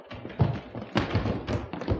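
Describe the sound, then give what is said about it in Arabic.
A wooden door is unbolted and opened during a raid on a house, giving a few dull thuds and light taps in an uneven run, faint and brief. “ما تكسروش الابواب، انا هفتح لكم الباب.”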